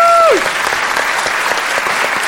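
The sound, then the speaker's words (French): Studio audience applause on a French television show as a guest arrives: a short tone slides downward at the start, then loud, dense clapping carries on at an even level. “Mesdames et messieurs, on peut applaudir. Cyprien est venu nous rejoindre pour l'émission.”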